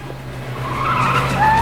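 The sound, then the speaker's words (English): Tires squeal as a getaway car races off, a harsh skidding whine rising in pitch over a low engine rumble and swelling louder toward the end. “Rudy's other attacker, Amnon, races off.”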